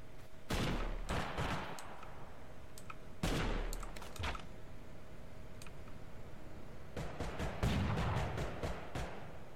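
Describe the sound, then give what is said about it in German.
Gunfire in the video game Totally Accurate Battlegrounds comes in three clusters of rapid, sharp shots, near the start, around the middle and toward the end, with quieter gaps between the bursts. “Wer schießt doch hier auf mich? Oder hast du mir das geschossen?”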